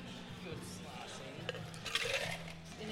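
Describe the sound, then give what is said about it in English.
Liquid sloshes faintly as a cocktail of Sprite, sour mix, crushed blackberries and muddled orange is stirred back and forth, with a couple of light clinks partway through. “He's giving it a good back and forth sloshy mix. Oh, look at that. You can see the crushed up blackberries in it. You can see the muddled up orange in there.”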